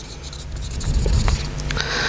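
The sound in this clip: A pen scratching and rubbing as it draws, a few short strokes that swell louder in the middle and then continue steadily to the end, with no voices.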